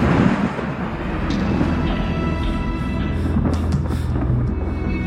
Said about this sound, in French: Dans les airs, les feux d'artifice se mélangent aux éclairs de l'orage qui gronde et qui écourte la fête.